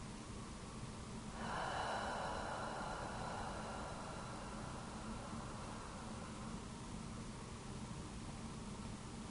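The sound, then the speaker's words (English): Slow, deep breathing during a guided relaxation exercise: one long, airy breath begins after a moment and gradually fades, soft and faint over a steady background hiss. “Breathe in fully and breathe out.”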